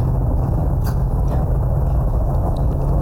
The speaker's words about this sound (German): Er blinkt! Der Lieferwagen setzt zum Überholen nach.